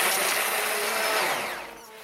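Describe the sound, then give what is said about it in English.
A hand blender blitzes a pot of simmered soup with a dense, steady whirring roar that holds level, then eases off and drops in loudness near the end. “take the lid off and then get your hand blender or put it in a normal blender and blitz it up.”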